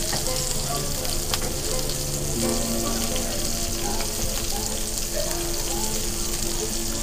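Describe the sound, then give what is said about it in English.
Sausage frying in a pan gives a loud, continuous, even sizzle with crackling, steady throughout and without clear talk. “So let's get some of this sausage in the back so it drains.”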